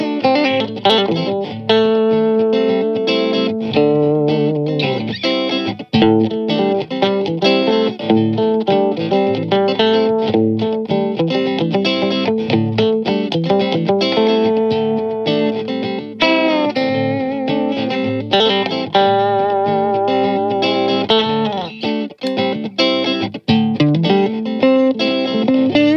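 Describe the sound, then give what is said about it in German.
Electric guitar played through an always-on effects pedal gives a distorted, saturated tone. Chords and melodic lines run continuously and loudly for the whole length, with no talk. “Das ist aber eher so ein Ever-On-Pedal, was man eigentlich mal eingeschaltet lassen möchte für den Sound.”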